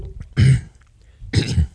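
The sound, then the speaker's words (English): Two harsh coughs from a man during a sermon, separated by a short pause, loud and alone without speech. “Forgive me, Lord, for coughing.”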